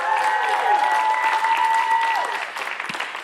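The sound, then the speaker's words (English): A church audience applauding on a Sunday morning: loud, dense clapping that holds steady for about two seconds, then thins out and softens toward the end. “Let's give it up for Jesus this morning. Come on.”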